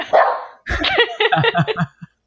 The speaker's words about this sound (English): Sorry. That was my dog.